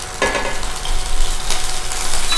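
Eggs frying in butter in a hot pan, a broad steady sizzle and hiss with brief bursts of stirring or scraping, continuing without talk.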